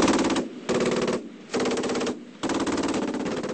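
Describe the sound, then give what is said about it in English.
MG3 machine guns fire sequential bursts at a rusted, wheelless pickup shell. Four loud, rapid, rattling bursts are divided by three short pauses, each burst a dense, continuous stream of shots. “The four machine guns fire sequential bursts, raining a constant stream of bullets all around the target.”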